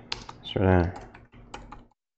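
Typing on a computer keyboard: a few sharp key clicks at the start and again near the end, with a short voiced, hum-like sound between them.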